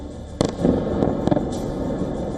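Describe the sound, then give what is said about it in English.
Missile impacts strike targets in a city district, a sharp loud blast followed by a rumbling roll and further cracking bangs and booms over a continuous low roar, no voices. “In the Golosivsky district, four Russian missiles slammed into targets in less than a minute. There were no interceptions, no explosions in the sky, just impact after impact.”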